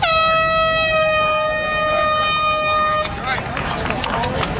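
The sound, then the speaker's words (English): A loud, steady air horn blast starts the National Peace Officers Memorial Run in Toronto, where officers from across Canada gathered. The horn holds for about three seconds, then cuts off into broad crowd noise with voices. “these officers arriving here in Toronto from right across Canada to start the National Peace Officers Memorial Run just a couple of minutes ago at the sound of the horn.”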